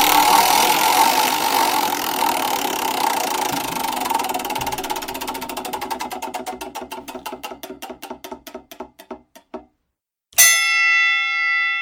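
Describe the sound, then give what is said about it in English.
A spinning prize wheel ratchets through a fast blur of clicks that gradually slows into distinct, widening ticks until it stops. After a short silence, a bright ringing tone sounds. “I'm spinning the wheel.”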